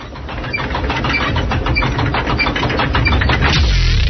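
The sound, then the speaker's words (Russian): A prize wheel spinning in a radio game produces rapid, even ticking over a dense rumbling noise. It stays loud and steady throughout. “ну что, мы крутим колесо? Крутим. Поехали.”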